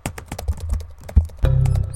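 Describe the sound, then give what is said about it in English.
Typing on a computer keyboard, a quick run of soft, irregular key clicks with small pauses between taps, followed by a steadier low tonal hum near the end. “Oh, I'm sorry, I've typed Bandon again.”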